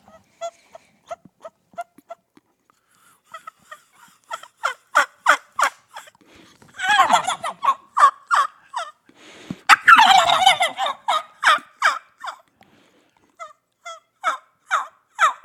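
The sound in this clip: A man's voice imitates a turkey gobbler: runs of short, sharp yelping notes broken by two loud, dense rattling gobbles in the middle.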